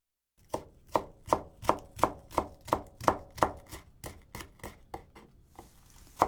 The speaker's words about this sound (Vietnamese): Tiếp đó, chúng ta sắc hành thành từng đoạn dài.